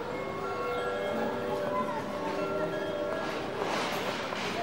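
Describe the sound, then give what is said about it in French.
Ambience of Rouen train station: a steady, even rumble of rail traffic with sustained tonal hums layered over a broad, busy background that holds constant throughout. “Vous êtes à la gare de Rouen. Vous entendez cette annonce.”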